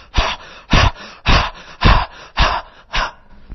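Six rapid, forceful deep breaths demonstrated for a breathwork meditation technique, each a loud rushing whoosh about half a second apart in a steady, even rhythm, with quiet gaps between them and no talking.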